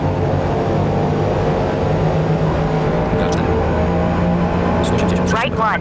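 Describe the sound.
Racing car engines in the Forza Motorsport video game hold a loud, steady high-speed roar near 200 km/h, while a man talks over them throughout.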